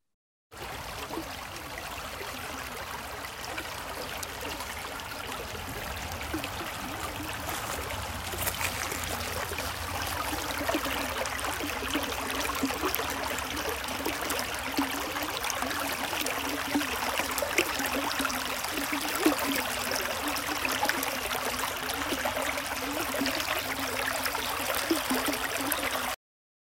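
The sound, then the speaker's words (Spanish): Flowing water of a river or stream: a steady, continuous rushing and trickling wash, even in loudness throughout and heard alone. “Yo creo que pocas cosas son tan relajantes como el sonido del agua. Así que los que pensaron en un río o en un arroyo están en lo correcto.”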